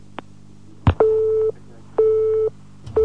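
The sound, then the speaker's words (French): A telephone busy tone after the caller has hung up: a click, then evenly spaced on-off beeps at a steady mid pitch, two full half-second bursts with a third starting at the end. “il a déjà malheureusement raccroché.”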